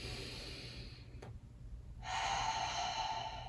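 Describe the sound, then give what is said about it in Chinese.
A deep breath taken slowly, faint airy breathing in two long phases split by a brief pause, the second phase fuller and louder than the first. “第一步，邀请大家在每一个让你不是很愉快的外在体验发生的时候，做一两个深呼吸”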